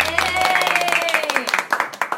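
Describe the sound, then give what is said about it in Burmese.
An audience applauds to honour a donor, with scattered crisp claps that grow denser beneath a speaking voice. “အလှူရှင်ကိုလက်ခုပ်တီးပြီးဂုဏ်ပြုပေးကြပါအောင်ရှင်”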